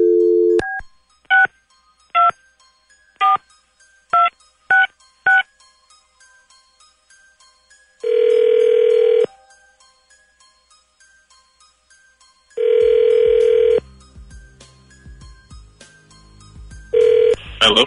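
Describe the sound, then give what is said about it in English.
Touch-tone keypad beeps dial a telephone number in a quick run of short tones after a brief dial tone, followed by two long ringback tones and the start of a third, with no talk. “Dialing at random.”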